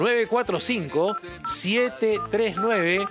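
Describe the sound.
Telephone keypad dialing tones as a phone number is entered, a few short steady beeps sounding beneath continuous talking.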